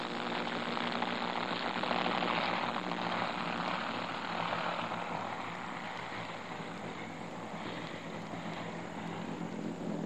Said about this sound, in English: There are fighters still swooping and soaring among the shipping, giving the AK-AK gunners what may be their last practice before the real thing. And a squadron of aircraft on operational missions go out overhead from time to time.